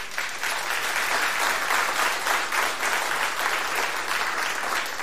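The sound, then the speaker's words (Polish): Studio audience applause from a packed radio studio: a dense, continuous wash of many hands clapping, steady and fairly loud for the whole stretch, with no voices above it. “Ano, właśnie miałem wywołać te brawa, to jeszcze raz spróbujemy.”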